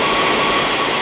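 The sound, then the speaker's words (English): Cooling fans inside servers in a data centre make a steady, dense whooshing roar, with a thin constant tonal whine running through the unbroken noise. “And the sound you can hear is the sound of the fans that are inside those servers that are being used to cool them down and keep them as cool as possible.”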